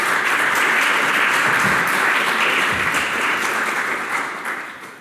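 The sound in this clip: An audience applauds to welcome the speakers at an evening panel hosted by the Federalist Society. The clapping is steady and dense throughout and tapers off near the end.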